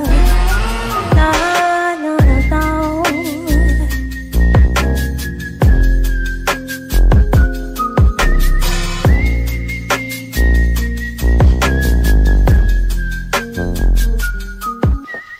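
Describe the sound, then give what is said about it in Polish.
Cheerful whistling carries a bright, sustained melody over a music track with a steady, punchy beat. The whistled notes hold and glide at a high pitch throughout, loud and continuous, with no talking. “A ja pogwizduję sobie wesoło”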